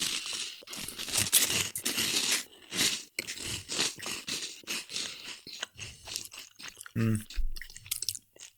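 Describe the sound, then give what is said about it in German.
Crunchy chewing of Kellogg's Crunchy Nut honey and nut breakfast flakes, with many crisp, uneven crunches and bites that come close together throughout. “Kennt ihr noch von Kellogg's Crunchy Nut? Ja. Diese Frühstücksflakes mit Honig und Nuss.”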